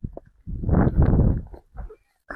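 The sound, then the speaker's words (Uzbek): Hooves of a donkey clip-clopping as it walks, carrying children to school; a loud stretch of irregular clattering is followed by a few separate hoof knocks. “Mana bunday bir xil payt eshakka mindirib, o'zim maktabga olib borib kelaman.”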